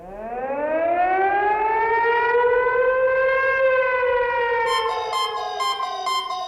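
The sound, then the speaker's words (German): A civil defense siren sounds during a test alarm: one loud, sustained wail that rises in pitch and then holds steady, with a rapid pulsing beep pattern joining in near the end. “Ja, wenn Sie eine Sirene heulen hören oder Ihr Handy plötzlich Alarmtöne von sich gibt”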